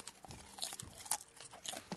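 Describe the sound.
Noisy crunching and chewing of a salt-butter, curry-flavoured snack: a rapid, irregular run of crisp bites and crunches, faint and with no talk.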